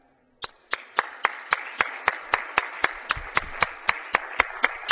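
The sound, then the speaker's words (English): Steady rhythmic clapping welcomes guests in the Missouri Senate chamber. After a brief silence it begins abruptly, with many sharp, evenly spaced claps continuing at an even, brisk pace. “if the guests from the Buchanan would stand, and the Senate would welcome them to the Missouri Senate.”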